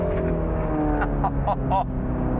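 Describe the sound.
A sports car's engine accelerating on throttle after a downshift, with a loud, steady, harmonic drone sustained throughout.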